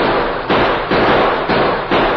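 Gunshots ring out in a shootout around a train, several loud blasts at roughly even intervals over a dense, rough noise, with no talk.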